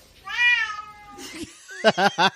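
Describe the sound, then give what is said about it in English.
A cat meows: one long, drawn-out meow, a brief quieter sound, then a quick run of about three short, sharp meows in an even rhythm. Nothing else is heard. “That is a cat.”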